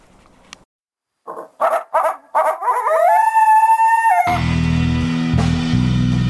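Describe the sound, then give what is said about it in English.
Coyotes howling in the desert at night in springtime: a few short rising yips, then a long sustained wavering howl, followed by a louder, denser chorus of overlapping calls. “It's titled Coyotes in Springtime, and it includes a lot of other critters too”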